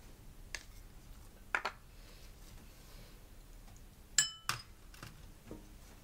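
Hard vegetables being mixed in a bowl, with faint scraping and a few distinct clinks of a utensil against the dish, separated by quiet pauses.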